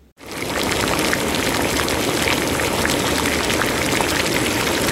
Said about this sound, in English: The sound you just heard was a recording of boiling water.